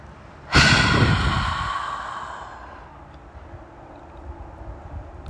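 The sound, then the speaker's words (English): A single deep breath out during a guided breathing exercise, loud and airy at its onset and fading gradually over about two seconds, followed by near quiet. “Breathe in through your nose. Breathe out.”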